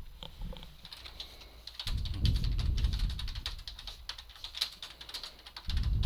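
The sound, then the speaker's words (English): Fast, uneven clatter of fingers typing on a computer keyboard, a dense run of key clicks with short pauses and no voices. “Oh boy, suddenly I don't know how to type at all.”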